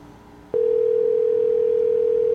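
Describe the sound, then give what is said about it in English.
A telephone dial tone begins abruptly after a short, quiet moment and then holds one steady, unbroken pitch at a constant level until the end, with no voices or other sounds. “Is it dialing? Is it not dialing?”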